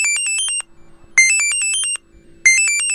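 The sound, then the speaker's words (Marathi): A mobile phone rings with an electronic ringtone: three loud bursts of rapid, high-pitched chirping beeps, each burst split by a short silence, heard alone without voices. “थांब थांब थांब थांब, सुखदाचा phone आहे.”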